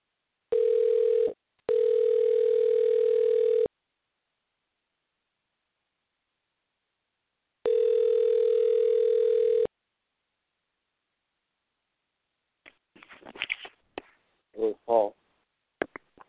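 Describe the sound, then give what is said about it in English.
A telephone line tone plays while someone dials in to a call: a steady mid-pitched tone in three bursts, one short and two about two seconds long with pauses between, then brief talk. “Give me a minute here while I dial in.”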